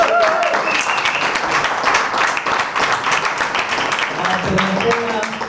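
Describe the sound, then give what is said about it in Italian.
An audience applauds a comedian at a comedy night, with thick, sustained clapping that stays loud throughout and a few cheers mixed in. “Iniziamo subito la serata facendo un grandissimo applauso a Dado Tedeschi.”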